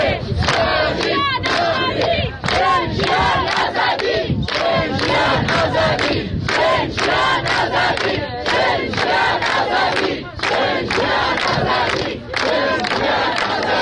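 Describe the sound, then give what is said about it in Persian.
Mourners at Mahsa Amini's grave in Aichi cemetery, Saqqez, gathered at Eid al-Fitr, chant slogans together in loud, repeated shouted bursts, each phrase rising and dropping in a steady rhythm of crowd voices. “این صدای سقز بود، آرامستان آیچی، مزار مهسا امینی.”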